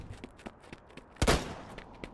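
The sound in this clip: A gunshot in a video game: one sudden, loud, sharp blast with a short rumbling tail, set against faint, quiet background ticks.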